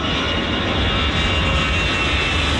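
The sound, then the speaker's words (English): Airliners take off at Paris's biggest airport with a loud, steady jet roar, a continuous broad rumble with no pauses and no talking. “for not hearing anything over the sound of hundreds of flights taking off”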